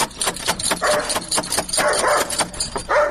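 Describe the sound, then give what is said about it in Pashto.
A dog barks at a house door in a few sharp, yelping bursts with short pauses between them, the barks fairly loud and high-pitched. “دا څه بد سپی لري، ته ودرېږه چې بیا دروازه ور.”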